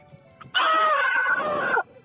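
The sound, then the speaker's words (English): A child screams in a car, played back from a voicemail message: one loud, high, sustained cry lasting just over a second, heard alone. “I mean, what's he screaming about?”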